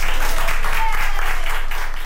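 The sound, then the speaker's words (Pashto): Doctors and nurses in Madrid applaud a woman over 100 years old who has recovered from coronavirus. Their loud, sustained clapping has a faintly pulsing rhythm and eases off slightly by the end. “د اسپانیا په پلازمینه مادرید کې ډاکټران او نرسان هغې مېرمنې ته چکچکې کوي چې تر 100 کلونو تیره ده او له کورونا رغېدلې ده.”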